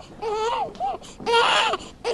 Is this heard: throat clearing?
no